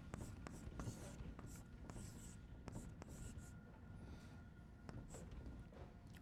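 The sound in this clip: Chalk or marker strokes on a board during an organic chemistry lecture on acids and acid derivatives: many faint, quick scratchy strokes and taps in an uneven rhythm over low, steady background noise.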